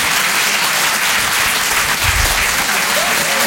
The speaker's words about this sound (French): public, vous pouvez vous applaudir très très fort